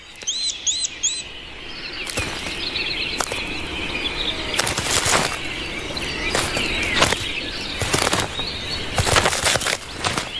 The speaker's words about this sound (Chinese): 青鸟因势利导，从现在开始，他们只会在树洞外喂雏鸟。犹豫的雏鸟只好也钻出树洞。